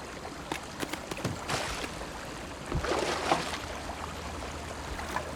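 A canoe is paddled on water: a few sharp splashing strokes early on, then continuous trickling and sloshing with a brief surge of splashing near the middle.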